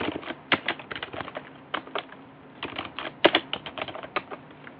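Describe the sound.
Rapid keystrokes on a computer keyboard as someone types lines into a terminal command: many sharp, uneven clicks in irregular bursts, fairly quiet and without any talk.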